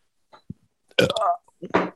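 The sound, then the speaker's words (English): A man talking while burping, forcing out gravelly, belched words in two loud bursts after a few faint short sounds. “Speak and burps, not just burps.”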